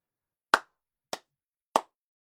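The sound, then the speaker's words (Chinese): Three sharp hand claps from a single person ring out in otherwise silent surroundings, evenly spaced and crisp, each fading quickly. “掌声骤然响起，众人看向鼓掌的人。”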